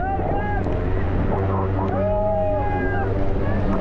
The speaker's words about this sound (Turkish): Yaklaşık 50 santimetreyi bulan dalgalar ve sert rüzgarın altında yapılan sürüş kameralara böyle yansıdı.